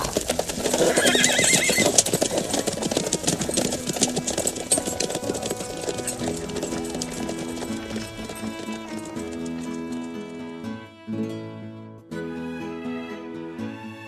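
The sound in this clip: Horses neigh loudly over steady clip-clopping hooves, the whinnies and hoofbeats running on without a break.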